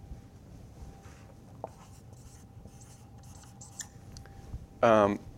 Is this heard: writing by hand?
yes